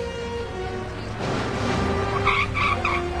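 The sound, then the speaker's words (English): A Porsche sports car speeds down a slick city street with a steady roar of engine and wet road noise. A few brief, high tire squeals come near the end. “Alex's Porsche speeds down a slick city street past the curved Watergate Hotel.”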